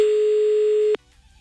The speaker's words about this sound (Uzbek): Demak, qo'ng'iroqni amalga oshirdik.